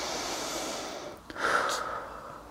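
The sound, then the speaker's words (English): A single deep breath drawn in during a slow countdown exercise. The inhale is brief and soft, rising out of a quiet, steady hiss. “Let's breathe in first.”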